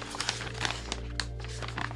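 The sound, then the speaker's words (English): Quiet, scratchy rustling and crinkling as a paper envelope is handled and opened. The texture is steady, with a few small ticks over a low hum. “I guess I have to open it. Okay, also in the envelope, another envelope.”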